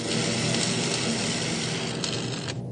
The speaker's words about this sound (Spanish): Terminan de cortar el portón.